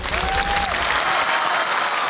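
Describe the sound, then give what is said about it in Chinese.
An audience applauds a Yao folk knife-ladder climbing performer with dense, steady clapping that stays loud and continuous throughout and thins slightly toward the end. “掌声送给吴大哥”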